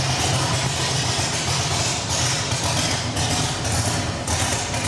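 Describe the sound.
Car engine idling as the car raises itself on its suspension, a continuous, even rumble with no distinct separate events.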